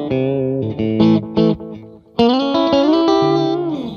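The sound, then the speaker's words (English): Electric guitar tones from a Stratocaster played through effects: a few short, choppy notes with gaps, then a long, shimmering sustained chord with a chorus-like wash and reverb tail, loud and without voices. “That's the perfect Strat sound. It's real Stratty.”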